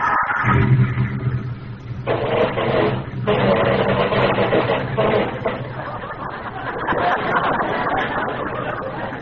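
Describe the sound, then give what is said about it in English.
A new car's engine starts up once the ignition is turned on, settling into a steady mid-pitched running rumble with a continuous mechanical whir. “Forgot to turn on the ignition. Here we go.”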